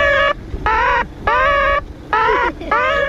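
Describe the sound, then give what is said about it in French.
Five harsh, nasal caws from a synthetic, robotic-sounding crow call played to scare birds away. Each call is a short, steady-pitched burst separated by brief gaps, loud and with no talk. “Alors ça en fait, c'est le chant du corbeau synthétique. C'est un peu robot, ça, c'est pour les faire fuir.”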